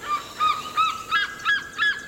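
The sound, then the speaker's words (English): Madagascar fish eagle calling: six loud, nasal, honking notes in a steady repeating rhythm, each note short and harsh, with no voices. “He works with some of the rarest birds in the world, like the Madagascar fish eagle.”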